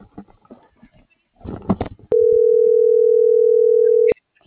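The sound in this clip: A telephone ringback tone on a dialed call: one steady, even tone lasts about two seconds, opening and closing with a faint click. Voices talk before it.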